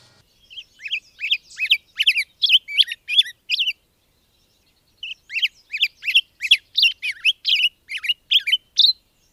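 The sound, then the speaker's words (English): A black-headed grosbeak sings two warbling phrases of quick, high chirped notes separated by a short pause, with nothing else heard. “It's a black-headed grosbeak”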